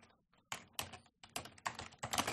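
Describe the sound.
Rapid, irregular clatter of keys being typed on a computer keyboard, quiet clicks bunched into short bursts with no talking.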